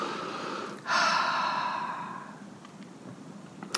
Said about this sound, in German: schließe einfach deine Augen und atme einmal tief ein und über den Mund wieder aus.